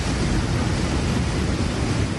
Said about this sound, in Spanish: Temporal de mar con olas que suben ya 5 metros y llegarán a los 7.